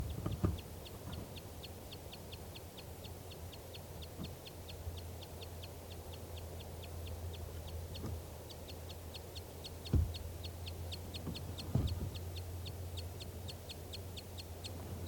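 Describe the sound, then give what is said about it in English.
Alarm calls, called toops, from a female bird perched in trees near her nest after flushing from it: short, high, clicking notes repeat many times at a steady, even pace, with a few dull low thumps along the way. “A female flew off the nest when I threw a stick at it, and she's perched in the trees nearby. Stop. Start recording. These are the toops or alarm calls of a female.”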